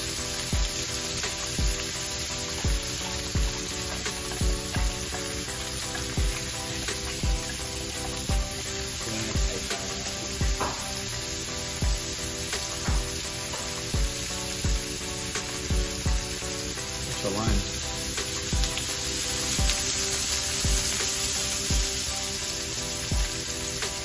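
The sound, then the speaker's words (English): A steak, seasoned with salt and pepper and doused in olive oil, fries in a pan with a loud, continuous sizzle. Steady crackling spits and pops run through it without pause. “Simple. We'll let that fry for a couple minutes.”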